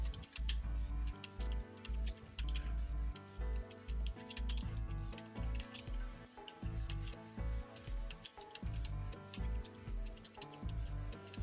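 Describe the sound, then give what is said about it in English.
Keystrokes on a computer keyboard as text is typed, many quick dry clicks in an uneven run over steady background music. “I'm going to come up into my um, viewport and I'm just going to type”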